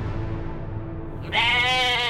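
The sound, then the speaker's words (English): A goat bleats, the Naval Academy's living mascot held in a locked cage: a single loud, sustained harmonic bleat starts partway through and runs to the end over a low background rumble. “A goat. But it's not just any goat.”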